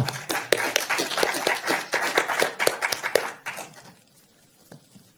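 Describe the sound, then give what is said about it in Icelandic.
Audience applause for a presenter at a university talk event: lively, uneven clapping from a group with sharp individual claps, which then dies away to near silence with only a stray faint clap left. “þakki Jón Þorvaldur, við skulum gefa gott klapp”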